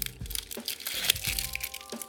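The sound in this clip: Crinkling and crackling of a wrapper being opened on a gluten-free chocolate with a question inside, with many small, irregular crackles at a soft level.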